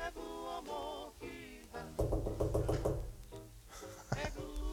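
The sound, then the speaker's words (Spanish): Knocking on a wall, with a quick run of several raps in the middle, set among people talking and laughing. “Vamos, vamos, a golpear la pared. Eso. Vamos a golpear la pared.”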